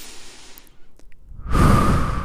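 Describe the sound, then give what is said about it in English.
A deep breath taken during a guided pause: a quiet, near-silent stretch gives way to a loud, rushing breath that swells and holds through the final second. “we need to take a breath together. Let's take a breath.”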